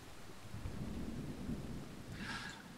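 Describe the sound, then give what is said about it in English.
A thunderstorm in dark woods: steady rain hiss mixed with a low, rolling thunder rumble that runs throughout. It stays soft and continuous, with no voices. “Out into the dark woods you go. The rain, thunder, lightning.”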